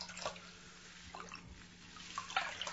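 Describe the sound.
Faint water splashing and dripping as hair is soaked during washing, with soft, intermittent trickles and small splashes spread across the moment and no talking.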